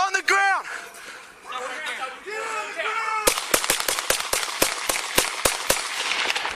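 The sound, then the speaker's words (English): A police officer fires a handgun in a backyard, caught on a body camera: a rapid string of sharp, loud shots follows a shouting voice. “That's the officer shooting the boy 11 times.”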